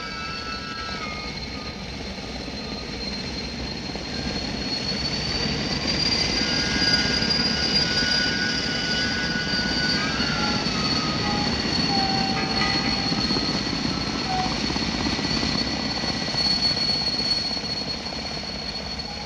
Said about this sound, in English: It was only then I heard the screaming superchargers, and as they died away